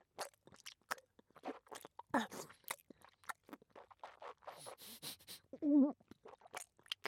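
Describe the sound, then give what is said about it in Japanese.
Crunchy chewing of food soaked in fire-extinguishing water: many irregular crunches and bites, fairly faint, with a brief voiced sound near the end. “噛むたびに鎮火水が溶け出して、ひどい味だ。”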